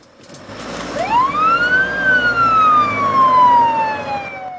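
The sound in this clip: An ambulance siren wails loudly on its own, its pitch sweeping upward and then sliding slowly back down in one long, clear cry.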